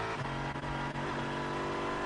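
A GT3 racing car at Le Mans produces a loud, steady engine drone with a sustained tonal whine, running continuously for the whole stretch.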